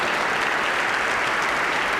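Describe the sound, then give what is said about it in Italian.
Applause from a worldwide, simultaneous ovation for the Brevis choir of Minsk: a dense, continuous wash of many hands clapping at a steady, even loudness, with no voices standing out. “abbiamo accomunato tutti quanti in contemporanea mondiale l'applauso al coro Brevis di Minsk”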